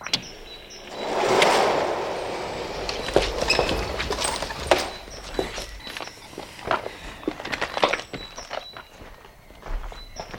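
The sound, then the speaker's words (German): A gate being opened: a broad swelling rush early on, followed by many irregular knocks, thuds and clattering, step-like sounds that continue to the end, with almost no talk. “Ach, sehr gut. Ich öffne das Tor.”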